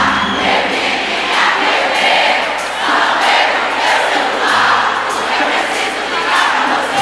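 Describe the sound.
A concert crowd cheers, shouts and makes noise in a dense, steady roar that stays loud for about seven seconds without letting up.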